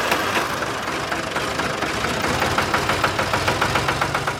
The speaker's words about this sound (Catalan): O el pagès, que abans per llaurar feia servir els animals i ara llaura amb el tractor.